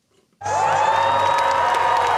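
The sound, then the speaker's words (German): Swedish Social Democrats cheer on election night, a near-silent moment suddenly giving way to a loud, sustained roar of shouts, whoops and clapping from the crowd. “Es ist eines ihrer schlechtesten Ergebnisse seit rund 100 Jahren. Und trotzdem jubeln Schwedens Sozialdemokraten.”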